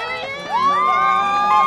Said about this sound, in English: From the first wheelchair competitor to the last runners, families, friends, total strangers, the cheering never stops.